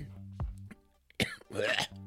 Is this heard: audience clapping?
no

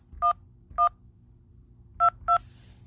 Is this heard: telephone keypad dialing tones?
yes

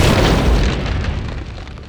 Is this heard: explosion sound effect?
yes

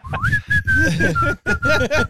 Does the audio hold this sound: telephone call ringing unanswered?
no

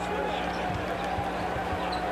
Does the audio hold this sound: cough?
no

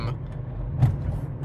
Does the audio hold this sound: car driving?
yes

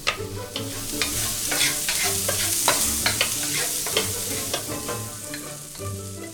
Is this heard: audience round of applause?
no

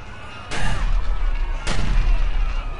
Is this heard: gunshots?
yes

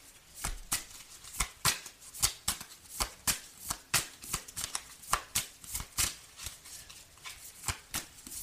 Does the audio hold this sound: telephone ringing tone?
no

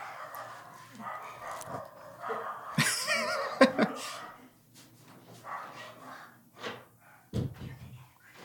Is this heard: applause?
no

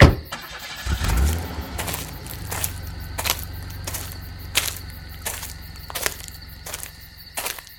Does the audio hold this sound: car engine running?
yes

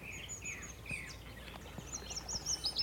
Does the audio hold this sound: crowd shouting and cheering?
no

